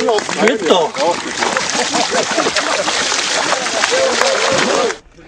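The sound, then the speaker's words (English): Water splashing and churning as swimmers plunge into cold water for the start of Berlin's bathing season, a dense, continuous wash of splashes mixed with people's voices, cutting off near the end. “that hasn't stopped these brave swimmers taking the plunge. Yep, that's right, the bathing season has started in the German capital”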